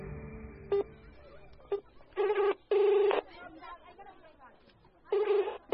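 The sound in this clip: A telephone call is placed from inside a car: a couple of short tones as the number is dialed, then three louder ringing bursts with pauses between them.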